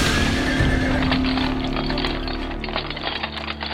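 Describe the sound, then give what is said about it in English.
Horse neighing and hooves of a horse-drawn carriage on a bumpy ride. A whinny opens over steady rumbling noise, with many faint hoof beats and knocks underneath. “I say, this carriage ride is awfully bumpy, isn't it?”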